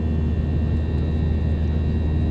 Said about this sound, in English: I'm making this podcast episode not just because it's the first one I've ever recorded on an aeroplane